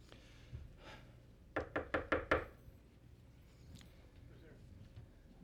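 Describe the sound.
Knocking on a door: five sharp, evenly spaced raps in quick succession, clearly louder than the faint, low background sounds around them.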